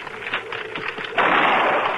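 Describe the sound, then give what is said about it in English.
A rifle shot rings out during a buggy ride, as if someone were hunting nearby: one sudden loud crack partway through, then a long, noisy, hissing tail that stays loud to the end. “What was that? A rifle shot”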